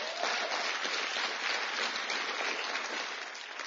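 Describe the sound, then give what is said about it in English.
An audience at a church meeting claps after worship. The applause is soft and even, a continuous patter of many hands that thins slightly toward the end. “Were you blessed by the worship? Give the Lord a big hand, please.”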